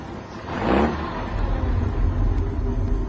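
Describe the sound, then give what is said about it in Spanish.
A truck drives slowly through snow with a low, steady engine rumble, swelling briefly near the start and then holding an even drone. “El camión marcha lento y en zigzag, esquivando cuerpos fulminados en la nieve, autos detenidos y más muertos.”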